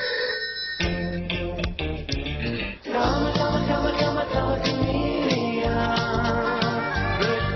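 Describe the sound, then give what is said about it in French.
A novelty singing chameleon telephone rings with an electronic pop melody, a steady beat and layered synthesized parts playing loudly and continuously throughout. “Each time the phone rings, it's music to your ears. You know the song.”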